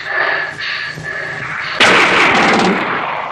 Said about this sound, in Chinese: 老爷，尝尝奴才的子弹吧！